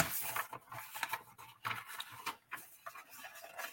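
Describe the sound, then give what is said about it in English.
Paper notes rustle and crinkle faintly in a series of short, uneven bursts of dry scratching, with brief quiet gaps between them. “I don't know if you can hear my paper rustling or not.”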